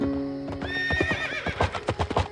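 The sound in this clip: A horse gives a loud, wavering whinny, followed by many quick hoof clops in an uneven rhythm.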